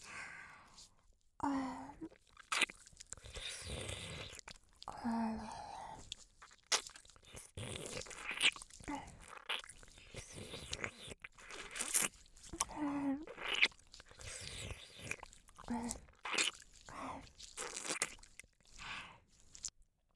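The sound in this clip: Wet mouth sounds of ear licking: many soft, sticky smacks, slurps and clicks in an irregular, continuous stream, mixed with quiet breathy sighs, close and intimate throughout.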